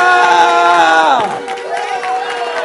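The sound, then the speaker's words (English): A church audience shouting praise, a loud, unbroken wall of raised voices in which one sustained shout slides down in pitch before settling into a steady crowd roar. “Jesus a mighty shout of praise in this house.”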